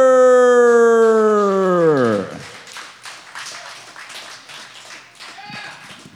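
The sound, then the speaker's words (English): An audience at an open mic applauds a poet with a burst of clapping, after a long tone that slides steadily downward and then gives way to the clapping. “Y'all, put your hands together for your second poet of the open mic portion of the evening.”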